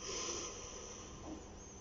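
A deep, slow inhale during a calm guided relaxation exercise. A steady, airy hiss of breath lasts throughout, soft and even, with no voices.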